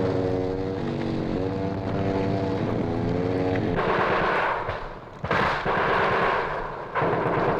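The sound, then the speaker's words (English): Heavy enemy gunfire erupts during combat near a jungle landing zone. A few loud, harsh bursts break over a steady droning engine hum, with the roar swelling and cutting out abruptly between bursts. “Men with chainsaws brave enemy fire to clear the landing zone. Heavy fire continuing.”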